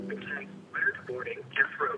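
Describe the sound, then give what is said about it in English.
A voicemail message begins playing back, a woman's voice coming through with the narrow, thin tone of a telephone line, speaking in a few short phrases separated by brief pauses. “Oh, Christ, did she leave me a voicemail?”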